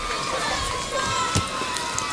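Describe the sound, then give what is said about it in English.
Greenville football fans roar at a state championship game, a dense, steady wash of crowd noise with mingled shouting voices that holds at a constant level throughout. “And next, you'll hear a roar from the crowd, and that will be the Greenville fans who are here”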